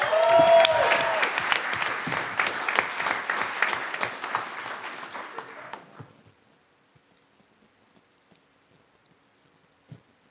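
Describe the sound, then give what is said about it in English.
Audience applause for a speaker being introduced at a live science talk event: dense, loud clapping for about six seconds that quickly dies away to near silence, with one brief knock near the end. “Please make some noise for Kai Mitchell.”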